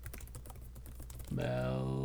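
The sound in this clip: Quick keystrokes on a computer keyboard as a name is typed, a busy run of clicks that gives way to a voice starting to talk.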